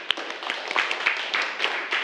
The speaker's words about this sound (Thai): ขอบคุณมากครับปรบมือให้เพื่อนหน่อย